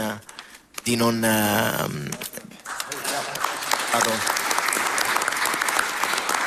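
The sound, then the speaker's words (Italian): Audience applause welcoming a guest at a public event swells into steady, dense clapping after a brief stretch of voices, continuing loud and even to the end. “Il presidente del Senato Ignazio La Russa, l'applauso a lei, grazie davvero per averci raggiunti.”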